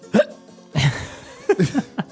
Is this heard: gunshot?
no

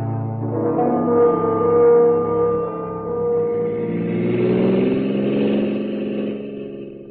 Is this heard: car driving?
yes

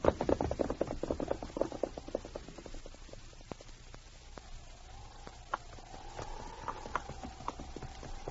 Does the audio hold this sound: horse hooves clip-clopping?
yes

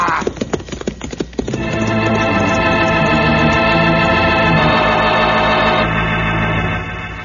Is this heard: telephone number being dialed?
no

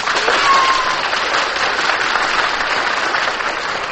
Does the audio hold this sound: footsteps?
no

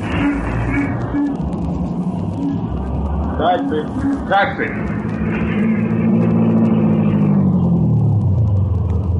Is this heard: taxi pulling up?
yes

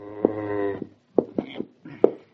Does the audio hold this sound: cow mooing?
yes

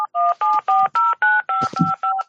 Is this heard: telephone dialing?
yes

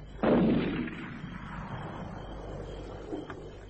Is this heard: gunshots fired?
yes

